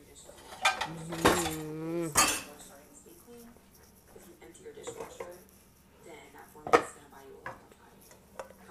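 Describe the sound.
Dishes and cutlery clank and clink as they are handled during cleaning, with a dirty dish being scraped out. Several sharp knocks come at irregular moments, with a person talking in between.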